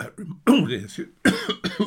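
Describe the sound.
Coughing from someone who choked when a crumb went down the wrong way: a few harsh, raspy bursts in quick succession, loud and uneven, with brief gaps between them.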